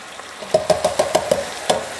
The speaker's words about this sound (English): And then my can of diced tomatoes, juice and all, going straight in.